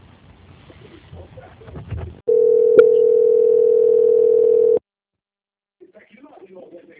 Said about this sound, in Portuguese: Agora eu vou passar a sua ligação para a auditoria, que eles vão só confirmar alguns dados com a senhora, tá? Só um minutinho.